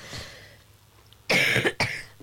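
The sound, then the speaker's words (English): Coughing and throat clearing from a person with a frog in the throat during a quiz: a few loud, harsh, rasping bursts that break a stretch of near silence and come in quick succession. “I've just got a frog in my throat just at the wrong moment.”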